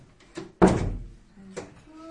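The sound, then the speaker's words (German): A door swings shut with one heavy thud and a short fading rumble. Softer knocks come just before and after it, and faint voices sit in the background. “Tür zu.”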